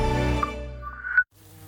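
Buzzing of bees: a low, rich drone that holds steady for just over a second, then cuts off abruptly and leaves a faint, quieter hum.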